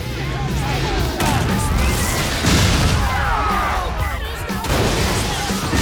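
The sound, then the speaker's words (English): A bar bursting into a massive ball of flames, heard as a sustained, loud, rumbling roar with repeated crashing and smashing bursts layered through it for several seconds. “The whole bar goes up in a massive ball of flames, and the bikers try to shield themselves from the falling debris.”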